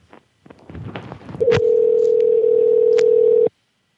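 Steady telephone dial tone while a call is dialed, holding one even pitch for about two seconds after a stretch of brief handling noise, then cutting off abruptly.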